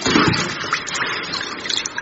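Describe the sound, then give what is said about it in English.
Water splashing and sloshing in a swimming pool as a woman climbs in: choppy, irregular splashes and trickles throughout, loudest near the start, with bursts of sloshing toward the end. “Watch out for the tidal wave. She's getting in the pool.”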